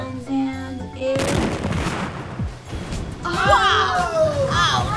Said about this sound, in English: No! The tracking droid just blasted Moroz!